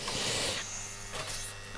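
Steady buzzing hum of an espresso machine pump running with its flow rate control opened fully to about 9 bar, an even, continuous drone with no talk over it.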